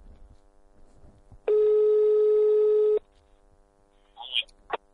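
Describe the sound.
The ringback tone of an outgoing telephone call, heard as a single steady, even electronic tone lasting about a second and a half, followed by a few faint, brief clicks and noises on the line.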